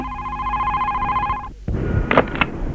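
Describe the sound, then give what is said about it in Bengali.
A home telephone rings with a steady, warbling bell for about a second and a half, then stops abruptly. Louder rustling and clattering noises follow, with no talking. “আরেতে ফোনটা ধর।”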